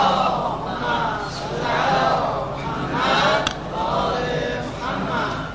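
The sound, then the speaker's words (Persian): An audience recites a salawat together, many voices chanting in unison in a steady drone that swells and ebbs in a few broad waves. “یه صلوات بفرست.”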